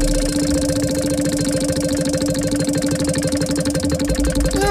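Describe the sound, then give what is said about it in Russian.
A prize wheel spinning at a game event, giving off a dense, rapid mechanical ratcheting and clicking that stays loud and even for the whole stretch, with a brief ringing tone right at the end. “Вот крутится колесо для Алпс”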